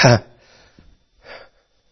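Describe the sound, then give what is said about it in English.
Heavy breathing of a man who is out of breath: a loud, rasping exhale like a throat clear opens, followed by a fainter breath about a second later, with quiet gaps between. “y'all have to excuse me, I'm out of breath.”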